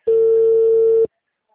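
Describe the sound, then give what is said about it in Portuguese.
A single steady telephone tone after a dropped call, clear and even-pitched for about a second, then cut off into silence. “Alô, a ligação caiu.”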